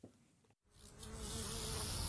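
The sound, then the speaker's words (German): Grasshoppers chirp on the south-facing slope of the Bözberg, a chorus of several species dominated by the bow-winged grasshopper. The dense, high buzzing chirr starts, drops out briefly, then returns steady and slightly louder to the end. “Heuschrecken zirpen am Südhang des Bözbergs.”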